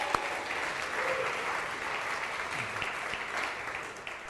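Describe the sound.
A church audience applauds first-time visitors with steady, moderately soft clapping that stays even throughout and eases slightly at the close.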